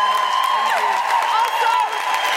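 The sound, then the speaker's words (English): A live show audience applauds and cheers, with high whoops sliding downward in pitch riding over a bed of clapping and crowd noise that stays loud throughout. “Big round of applause.”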